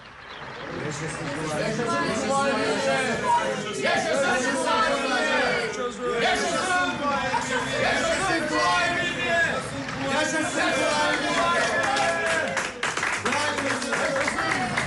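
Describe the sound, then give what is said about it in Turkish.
Crowds along the roadside and at windows in Bursa applaud and cheer arriving visitors: a dense, steady wash of clapping mixed with excited chatter and voices, unbroken throughout. “Yol kenarlarından, pencerelerden bize alkış tutuyorlar. Vay canına, bu insanlar bizim için mi dökülmüşler yollara?”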